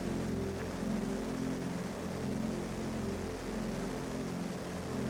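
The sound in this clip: Aircraft on its landing approach with gear down, a steady, fairly faint low engine drone with a constant humming tone throughout.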